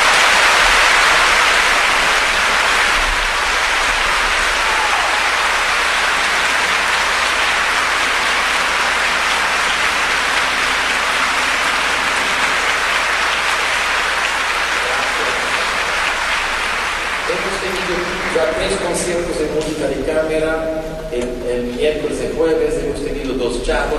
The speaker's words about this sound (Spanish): Eso merece un aplauso a la orquesta.